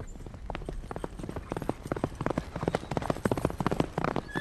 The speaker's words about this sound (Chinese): 从城里骑马而出。